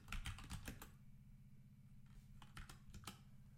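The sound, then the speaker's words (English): Faint typing on a computer keyboard: quick bursts of key clicks at the start and again near the end, with a quieter pause between them. “Hold on, let me type something in.”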